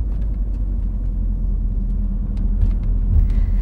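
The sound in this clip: Car engine rumbling steadily as the vehicle drives through the city centre in rush-hour traffic, a continuous deep, even drone with faint higher road noise and no voices.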